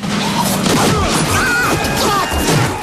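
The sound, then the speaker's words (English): A car smashes into a garbage can in a loud, dense wash of crashing, clattering noise with low rumble that continues throughout. “The car smashes into a garbage can.”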